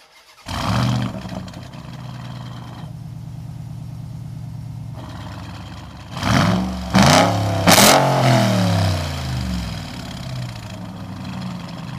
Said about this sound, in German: einen Vorgeschmack bekommen, wie dieses Auto klingt, ne? Mhm. Und der Sound, der war schon eine Ansage und weil er so ziemlich brutal ist, hätte ich gesagt, hören wir jetzt direkt nochmal rein.